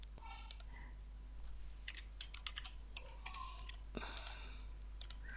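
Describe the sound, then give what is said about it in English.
Typing on a computer keyboard: quiet, irregular clicks and taps of keys, some in quick bursts, with no voices. “So just type in the first, there we go.”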